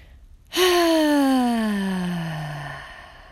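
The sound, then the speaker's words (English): One loud, voiced out-breath from a breathing exercise, a long sigh-like exhale that begins abruptly, sustains for over two seconds with pitch sliding steadily downward, then fades. “A louder sound, a louder out breath.”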